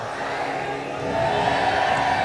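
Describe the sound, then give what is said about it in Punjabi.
A Sikh audience shouts the jaikara "Waheguru Ji Ka Khalsa" as a massed crowd of voices. The collective shout swells louder about halfway through and holds there. “ਜੈਕਾਰਾ ਬੜਾ ਚਾਹੀਦਾ, ਵਾਹਿਗੁਰੂ ਜੀ ਕਾ ਖਾਲਸਾ।”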